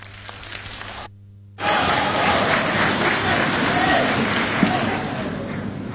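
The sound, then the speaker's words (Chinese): Audience applause at a crosstalk comedy show. A short stretch of sound and a brief near-silence come first. Then loud, dense clapping starts and stays steady to the end. “感谢大家的掌声， 谢谢您的热情。”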